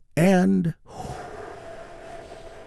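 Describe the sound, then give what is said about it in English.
A deep breath is taken during a guided meditation. A brief voiced sound is followed by a long, soft, even rush of breath. “Let's take another big, deep, healing breath together. Here we go.”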